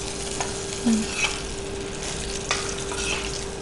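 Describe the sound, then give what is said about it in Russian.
Pike frying in a pan: a soft, steady sizzle with a few faint clinks and scrapes of stirring, quiet and unbroken by talk. “Немного обжариваем нашу щучку.”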